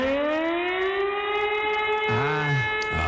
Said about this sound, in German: dann einfach mal nicht wundern. Hamburgs Sturmflutsirenen werden getestet. Muss man mal gucken, ob die noch funktionieren.